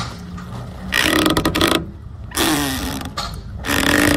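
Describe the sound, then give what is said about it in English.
Dock lines creak and strain as they tighten on a rocking boat, in a few loud, grinding stretches separated by quieter pauses. “that was dock lines tightening on a rocking boat”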